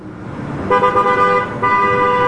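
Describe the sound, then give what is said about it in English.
Car horns honking in traffic at a busy intersection on Blue Hill Avenue while cars clog the crossing at a red light. Two loud, sustained, steady horn blasts sound over the low rumble of engines. “She watched cars on Blue Hill Avenue clogging the intersection during a red light.”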